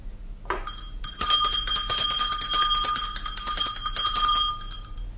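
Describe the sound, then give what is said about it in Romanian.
A small hand bell rings continuously for about four seconds, a bright, high, shimmering jingle that starts suddenly and then fades out. “Nu mă aud. Poate că nu sună destul de tare clopoțelul.”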